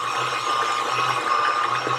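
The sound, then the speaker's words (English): An electric hand mixer whirs through boiled potatoes, mashing them. The motor makes a loud, steady whine with a faint rattling texture that stays constant throughout. “I think it's still yeah, a little lumpy. Yeah. Still need to get the lumps out for sure. But yeah, it's working. If you have a mixer, use it.”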